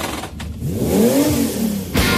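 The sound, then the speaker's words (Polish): Engine of a 300-horsepower Cupra Ateca car accelerating, a steady revving tone whose pitch climbs and then eases over about two seconds, with no voices. “300-konna Cupra Ateca, między innymi rozpędzająca samochód do 250 km.”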